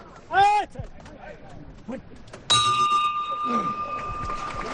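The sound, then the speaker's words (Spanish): A bell on a Holy Week procession float, the Virgin's float, gives a single sharp strike midway and rings on with a bright, sustained tone to the end. Shouted voices and crowd noise come before it. “Qué bonita la campana en vez del llamador en este caso.”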